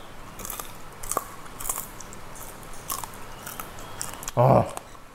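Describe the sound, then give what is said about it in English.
Spicy umami popcorn being eaten: a few crisp bites and crunching chews at a low level, then one louder, fuller crunch near the end. “a spicy umami popcorn just sounds so good to me. So let's give it a try.”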